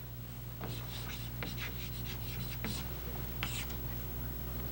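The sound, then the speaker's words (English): A marker drawing a circle on a board, with a few short squeaky strokes over a steady hum and faint talk in the background. “Have you ever noticed that's the only thing that I draw well is a circle? It's not perfect, but I mean it's much better than the things I usually draw.”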